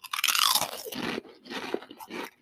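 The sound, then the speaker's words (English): Loud crunching of Pringles potato chips being bitten and chewed: dense, crisp bursts that are strongest at the start, then a few shorter crunches that fade in and out. No talking. “Tastes like plain Pringles, right?”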